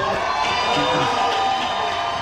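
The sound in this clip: A crowd cheers loudly and steadily for Texas Democratic Senate candidate James Talarico, a dense unbroken roar with shouts and whoops blended in.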